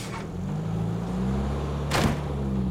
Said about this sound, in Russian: Автобус уезжает.